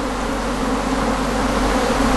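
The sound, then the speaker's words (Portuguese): Bees drone constantly around hundreds of honey beehives kept in a pine forest, a steady, even buzzing hum that holds the same loudness and pitch throughout with no pauses. “É aqui que os produtores de mel guardam as suas colmeias. São centenas. No ar, um zumbido constante.”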